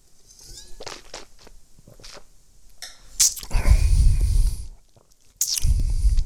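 Tasting Chablis white wine: after small quiet mouth sounds, two loud airy slurps draw wine across the palate, the first longer and the second shorter near the end.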